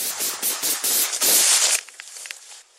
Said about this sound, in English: She and her colleagues were helping a woman remove some belongings from a home when, all of a sudden, the shooting began, as heard on this police body camera video.